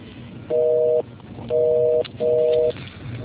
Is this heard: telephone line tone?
yes

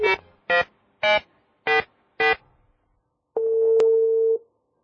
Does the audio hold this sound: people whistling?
no

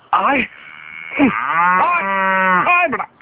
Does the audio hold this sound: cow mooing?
yes

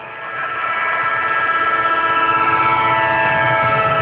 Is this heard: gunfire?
no

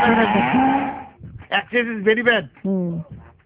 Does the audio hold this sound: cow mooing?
yes

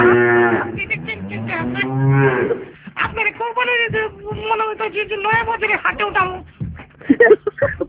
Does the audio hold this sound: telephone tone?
no

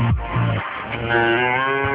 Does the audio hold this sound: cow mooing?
yes

